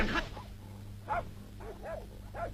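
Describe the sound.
A dog barks in a few short, faint yelps spaced apart, with a steady low hum underneath.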